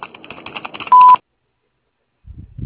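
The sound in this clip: A telephone message tone sounds as one short, steady, mid-pitched beep, cut in right after a stretch of busy clattering noise, followed by silence and a faint low rumble.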